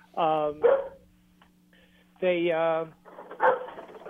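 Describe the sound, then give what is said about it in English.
A dog barking: a few short, voiced yelps and barks, some drawn out into a tonal whine, fairly faint over a low, steady hum. “Sorry about my dog.”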